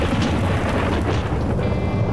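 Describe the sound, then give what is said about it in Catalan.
Thunder from a powerful lightning strike: a loud, dense, low rumble that roars steadily for the whole short stretch without breaking. “Va ser aleshores quan va caure un llamp formidable”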